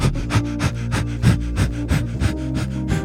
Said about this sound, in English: It's where you breathe in and out as fast as you can for 10 seconds, and you have to focus on getting your tummy to move in and out.